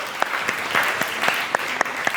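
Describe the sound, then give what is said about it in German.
An audience applauds, producing a steady, fairly loud wash of clapping hands with a few sharper individual claps standing out and no voices on top. “Jetzt ganz kurz einen Applaus für unseren mutigen Mann.”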